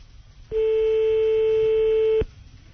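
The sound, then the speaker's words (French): A telephone tone sounds while calling a landline: a single steady, loud electronic tone that starts abruptly, holds unchanged for under two seconds and then cuts off sharply, with quiet line noise before and after. “J'appelle sur le fixe.”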